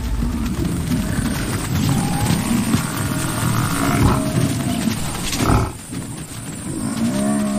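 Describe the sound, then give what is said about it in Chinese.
African buffalo herd bellowing while lions chase and drive them off: many overlapping deep, rough bellows and lowing calls form a dense, loud, steady din that dips briefly near the end. “与此同时，另一些狮群成员迅速冲上前，赶走了非洲水牛群。”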